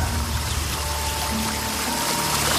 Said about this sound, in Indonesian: Di samping tenda ada semacam sungai kecil yang lumayan deras airnya.